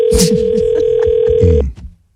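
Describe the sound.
Ringing tone of an unanswered phone call, a loud steady electronic tone holding one pitch for about a second and a half before cutting off, with rustling and other noises beneath it.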